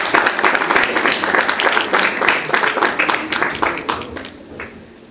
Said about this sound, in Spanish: Vamos a recibirlo con un fuerte aplauso,